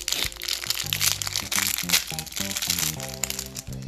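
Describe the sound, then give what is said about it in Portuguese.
Someone eats peanut brittle, producing many crisp, irregular crunches and crackles that continue throughout as the hard candy is bitten and chewed. “comer um pé de moleque.”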